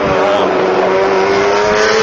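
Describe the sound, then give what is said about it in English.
A racing motorcycle rides past on a track, its engine a loud, sustained, high-pitched whine that holds steady throughout. “Teammate Max Biaggi just rode by.”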